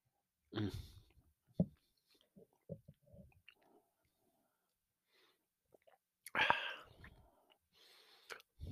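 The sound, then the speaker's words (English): Whiskey being sipped and tasted during a blind tasting: a few brief slurping sips and wet mouth sounds with soft breaths, separated by quiet pauses, one fuller sip standing out later on. “I'm going to take one more taste here.”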